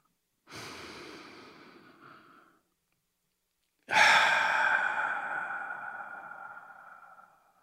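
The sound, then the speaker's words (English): A deep breath, alone without talk: a long airy inhale, a short pause, then a louder, longer exhale that slowly fades like a sigh. “let's take a deep breath”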